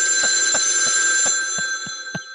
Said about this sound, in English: Let's answer the phone.